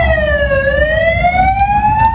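An emergency vehicle siren on the streets of Ceuta during a violent night of unrest. It is loud and clear, its pitch sliding down and then rising slowly again over a low rumble.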